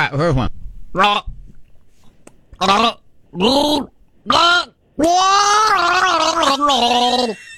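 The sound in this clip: A person gargles while singing a tune, the bubbling voice carrying the melody in short loud phrases separated by gaps, then a longer sustained gargled run at the end.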